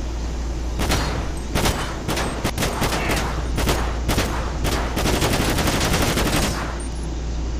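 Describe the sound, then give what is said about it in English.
Loud, rapid video game gunfire aimed at a car's tires in a police game. Many sharp shots come in dense bursts and volleys, with brief gaps between them. “Fire a warning shot at his tires.”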